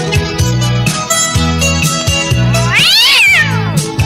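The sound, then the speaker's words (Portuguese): Cat meowing: one drawn-out meow that rises and then falls, set into loud dance music with a repeating deep bass beat. “Olha o gato.”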